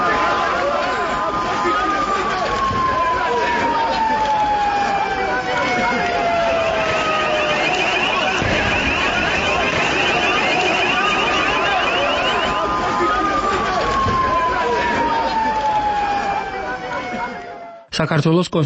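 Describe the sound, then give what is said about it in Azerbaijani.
Police and ambulance sirens wail in long, falling pitch sweeps during a crackdown on protesters on a Tbilisi avenue, over dense, continuous crowd noise and many overlapping voices. “Tiflisin Rustaveli prospektində rezin güllələrin, dəyənəklərin, polis, təcili yardım maşınlarının, bir də qəzəblənən və yaralanan insanların səsi gəlirdi”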